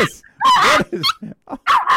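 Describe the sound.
An excited dog barking in a quick run of several sharp, high yips and barks, loud and close together with short gaps between them.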